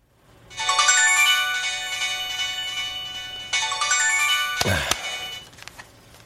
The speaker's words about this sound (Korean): 주차할 자리를 찾고 있는데 전화가 걸려왔다.